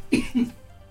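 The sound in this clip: Two short, sharp coughs from a person who has just choked while reading the news. The second cough is slightly weaker than the first, and both are followed by quiet.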